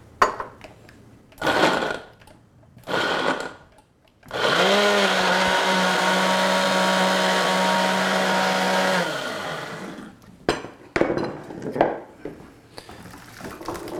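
A blender liquefies tomatillos, onions, green chilies and garlic with a loud steady whir for about five seconds. Its motor pitch climbs as it spins up and drops as it stops, with scattered knocks and handling noises before and after.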